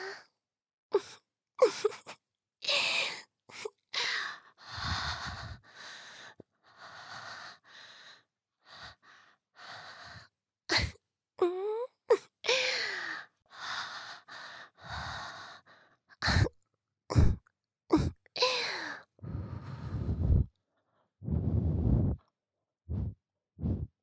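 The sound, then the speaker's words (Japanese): Soft breathy puffs of air blown close into the listener's ear in ASMR style, many short bursts separated by brief pauses, with occasional faint vocal sounds between them. “されながらお耳ふうふうされて幸せ？”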